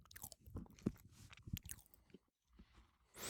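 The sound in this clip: Crisp crunching and chewing of a shortbread biscuit, a British teatime speciality sold as petticoat tails. Irregular crunchy bites and chews come in a quick, uneven run, pause briefly near silence, then resume.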